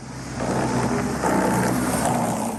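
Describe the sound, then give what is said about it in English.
Car tires running over highway rumble strip grooves in the asphalt make a continuous, loud, low droning buzz with a rough vibrating texture that surges slightly partway through. “The rumble strip. Yep, a rude awakening, but that is kind of the point, an important safety measure. The concept, though, behind it, tires going over asphalt grooves at a certain speed, creating sonic vibrations,”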